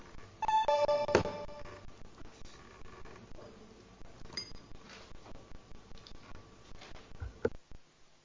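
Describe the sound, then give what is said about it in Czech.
A short electronic multi-tone signal at a town council meeting marks the start of a vote. It is followed by many soft, irregular clicks and taps, and a sharper click near the end. “Tak dotazy nejsou, takže pojďme po zvukovém signálu hlasovat o navrženém usnesení. Zahajuji hlasování.”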